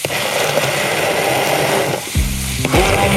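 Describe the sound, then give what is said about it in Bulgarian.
A cauliflower mixture with parmesan is stirred into a cream, giving a steady hissing, sizzling scrape that runs continuously and fairly loud, with no talk. “Към тази смес от кърфиола добавяме и малко пармезан. Ето, получава се крема.”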